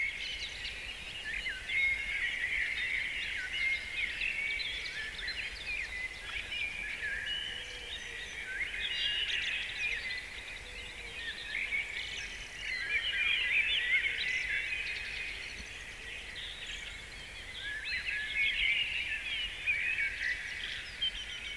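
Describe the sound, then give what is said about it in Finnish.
Spring morning birdsong from blackbird, robin, tits, woodpecker, woodpigeon and woodcock: a soft, continuous chorus of high chirps and trills that rises and dips gently in level throughout, with no talk. “Mustarastas, punarinta, tiaiset, käpytikka, sepelkyyhky, lehtokurppa. Nämä ovat kaikki aamuin äänessä, kun kevätkonsertti alkaa.”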